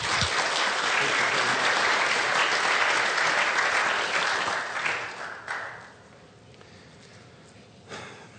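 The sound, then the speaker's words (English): Audience applause for a woman who has just spoken, a loud, dense clapping that holds steady for several seconds, then thins and fades to a quiet tail with one small late burst. “Let's give her a big hand.”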